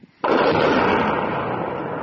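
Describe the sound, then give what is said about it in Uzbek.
An explosion in war footage from fighting around Bakhmut: a sudden loud blast that opens into a dense, sustained roaring rumble, holding steady to the end with no voices. “Ukrainaning 93-chi mexanizatsiyalashgan brigadasi Bakhmut atrofidagi bir nechta portlashlar aks etgan videoni e'lon qildi.”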